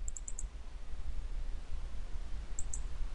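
Computer mouse clicks open a file: a quick burst of four sharp, light clicks, then a pause and two more near the end, faint over a low background hum.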